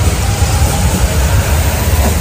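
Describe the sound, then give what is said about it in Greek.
Early-morning ambience at Stuttgart central station: a steady, dense wash of rumbling, hissing noise with no distinct events and no voices. “Πρωί-πρωί στον κεντρικό σταθμό, κάτω από Πάθρες στη Στουτγκάρδη.”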